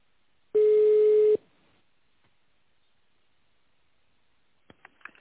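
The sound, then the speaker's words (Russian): A single steady ringing tone sounds on an outgoing phone call to an information systems laboratory, lasting under a second, followed by silence and a few faint clicks. “позвонили в лабораторию информационных систем.”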